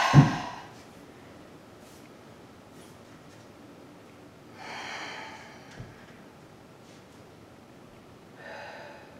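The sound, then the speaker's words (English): Deep breathing during a yoga low-lunge stretch, with three soft, airy exhales spaced several seconds apart over a quiet background and no talking. “Couple more breaths.”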